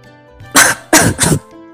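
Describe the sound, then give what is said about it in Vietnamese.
Three sharp, harsh coughs from someone choking on their own saliva, coming in quick succession, fairly loud, with a short gap after the first. “Đáng thương thay cho Hỏa Vân Thiên bị nước miếng của mình làm sặc.”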